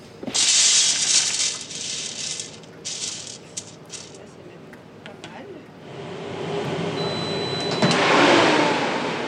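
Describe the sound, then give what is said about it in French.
A coffee roaster oven preheats before the beans are added. Loud mechanical rattling and whooshing noise continue throughout and swell toward the end. “on a mis le four en préchauffe pour pouvoir après mettre les fèves”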